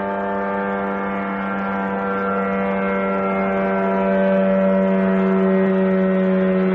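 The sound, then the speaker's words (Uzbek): Engine of an Iranian-made Shahed drone, harsh and rattling like a moped: a steady, buzzing drone rich in sustained harmonic tones, growing slightly louder toward the end. “Ukrainlar orasida tarillagan xunuk tovushli va Irondan xarid qilingan bu uchuvchi apparatlar moped laqabini oladi.”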